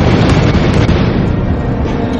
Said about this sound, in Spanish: se asoma para observar las explosiones que se producen en la parte más profunda de la mina